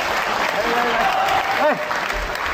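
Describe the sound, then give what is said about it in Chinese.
Audience applause at a live stage show as a performer is called on, a dense, steady wash of clapping with a voice briefly calling out over it. “掌声鼓励，掌声啦、啊！掌声鼓励！”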